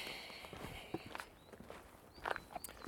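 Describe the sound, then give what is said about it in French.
Footsteps of someone walking in the Pyrenees mountains: many soft, irregular steps with a few sharper crunches, fairly faint. “Je suis en train de marcher dans les Pyrénées.”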